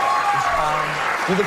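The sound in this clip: A late-night talk show studio audience applauds, a soft wash of clapping running steadily under a speaking voice for the whole short stretch.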